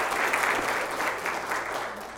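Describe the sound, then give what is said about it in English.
An audience in a church breaks into applause, a dense, even wash of many hands clapping together that holds steady and then eases off slightly toward the end. “All right, let's give them a round of applause.”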